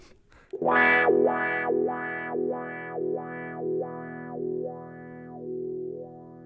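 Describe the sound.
Electric guitar through a wah-wah pedal: one struck, distorted chord held while the pedal rocks back and forth, giving a steady series of vocal-like 'wah' sweeps that grow gentler toward the end.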